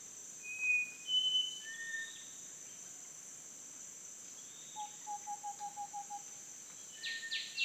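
Birds whistling in a jungle over a faint, constant high insect drone, with scattered clear whistled notes and a run of short repeated calls midway; no voices.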